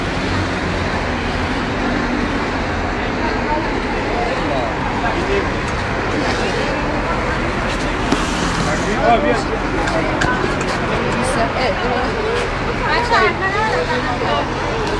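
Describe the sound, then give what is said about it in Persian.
A bus pulls in amid street traffic, its low, continuous engine rumble running under people talking nearby. “خب این اتوبوسش اومد”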